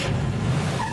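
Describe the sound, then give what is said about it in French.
Car engine noise: a steady low motor rumble running for about a second, loud and continuous with no voices. “C'est une voiture, parce que vous êtes en train de passer votre permis”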